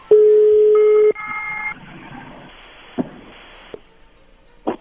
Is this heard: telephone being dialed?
yes

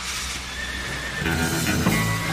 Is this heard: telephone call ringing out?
no

